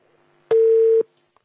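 A single steady telephone line tone as a call comes in, a clean mid-pitched beep lasting about half a second, heard alone against near silence.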